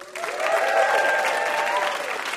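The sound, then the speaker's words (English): An audience at a puzzle game show applauds a guest, with clapping swelling quickly after the start and holding steady and full for about two seconds. “How about a hand for our VIP, Adam Rapoport?”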